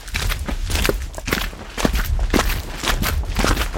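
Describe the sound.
Footsteps of people walking outdoors on a snowy hiking trail, a steady run of crunching steps with an even rhythm throughout.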